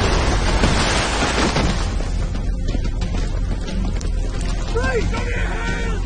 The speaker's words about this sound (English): A masked soldier places a black disc onto the medical center door. The outer rims blinks red. The door explodes.